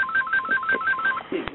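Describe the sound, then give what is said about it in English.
A phone ringtone plays as a quick string of short electronic beeps alternating between two pitches. It then breaks off, and a brief muffled knock follows. “Let me take that phone. Whoever's phone is ringing.”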